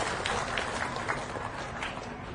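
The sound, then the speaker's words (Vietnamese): Soft applause honours Buddhist lay donors who helped fund a temple, a continuous, even patter of many hands at low volume. “Xin quý vị dành một tràng vỗ tay để tán dương các vị Phật tử đã trực tiếp hoặc gián tiếp tham gia đóng góp.”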